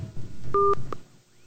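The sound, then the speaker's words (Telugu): Electronic tone of a phone call dropping because of a network problem: a short two-pitch beep followed by a fainter blip, then the line noise fades to near quiet. “Okay, call cut అయిపోయింది, కొంచెం network problem ఉన్నట్టుంది.”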